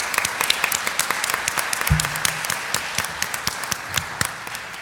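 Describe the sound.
An audience applauds with dense, steady clapping throughout, many sharp overlapping claps at an even loudness.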